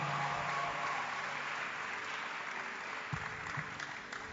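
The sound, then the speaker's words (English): Church audience clapping their hands to welcome a woman to the front: quiet, even applause from many people runs throughout and thins slightly toward the end. “As you put your hands together, help me welcome our sister, Mary. Keep putting your hands together for the Lord.”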